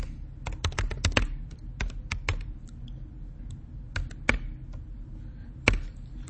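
Typing on a computer keyboard, crisp key clicks in irregular bursts and pauses, some strokes sharper than others, over a low background hum with no talk.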